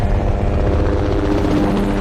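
A helicopter's rotor chops in a steady, loud whirring drone that holds at an even level throughout, with no talk.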